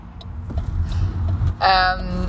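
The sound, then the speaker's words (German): Low, steady engine rumble of a car driving between villages, with a brief higher whirring whine rising over the drone partway through. “Wir fahren von Dorf zu Dorf, bis wir schließlich in dem kleinen Örtchen ankommen, wo der Rocker mit Decknamen Tom wohnen soll.”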